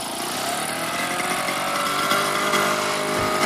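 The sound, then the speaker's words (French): A small engine on an old, not-new VéloSolex moped buzzes steadily, with a constant, thin, raspy drone much like a lawn mower. It runs alone, without talk. “Oui, c'est pas bien nerveux. Hein. C'est une tondeuse. Mais notre vélo Solex est pas neuf.”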